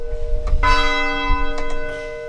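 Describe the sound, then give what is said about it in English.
Church bells ring from a church in Thetford during the evening bell ringing: several clear, loud strikes with long, sustained, shimmering tones that overlap and hang in the air, with no voices. “At the height of the pandemic last year, bells rang out from 5 churches and school buildings in Thetford every evening at 7, including where Erica worships, the United Church of Thetford.”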